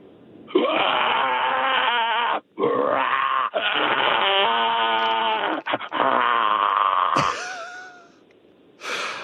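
A person imitates the call of an Australian bustard with low grunting, groaning and moaning phrases, several long stretches broken by short pauses, ending in a higher wavering wail and a final grunt.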